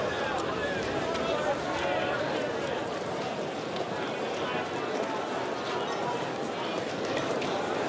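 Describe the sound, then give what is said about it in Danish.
Farmyard sounds with horse hooves clip-clopping: a dense, steady bustle of hoofbeats and clatter that continues throughout, with voices murmuring underneath. “Hører du lydene fra gården?”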